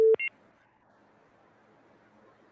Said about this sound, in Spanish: se cayó la llamada